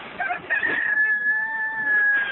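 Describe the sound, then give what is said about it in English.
A rooster crows once, a loud sustained high-pitched call that holds steady for about two seconds. “And at that moment, a rooster began to crow.”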